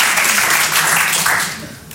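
Audience applause at a comedy show, a loud, dense wash of clapping that holds steady, then tapers off slightly near the end.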